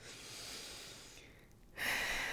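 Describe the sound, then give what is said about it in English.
A regular breath drawn through the nose or mouth during a relaxation breathing exercise, a soft, faint, airy rush that swells noticeably louder near the end. “it's going to probably sound not so good on the mic, but let's just go ahead. So regular breath.”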